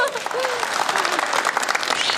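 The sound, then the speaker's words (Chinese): An audience applauds during a stage demonstration with dense, steady clapping at full volume throughout, and a voice briefly rises above it. “给鼓掌。”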